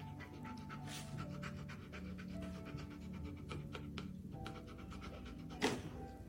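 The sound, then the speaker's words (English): A dog pants in quick, rhythmic breaths, a faint and steady huffing that runs throughout, with one louder burst near the end. “Now, that dog is smiling. That dog liked it.”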